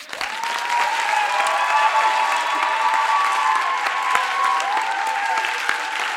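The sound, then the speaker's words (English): Audience applause fills the whole stretch: dense, steady clapping from many hands at a fairly even loudness, with no talk over it. “So your clapping is almost becoming like bribery. Or you are, it's like you are the one who gives rewards. So if you are clapping, clap properly.”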